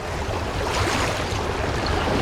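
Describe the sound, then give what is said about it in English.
Water gushes up out of a vent on a ship, a loud, continuous rushing roar with no breaks. “Maggie looks over her shoulder and sees the water is now pouring up out of the vent they climbed out of.”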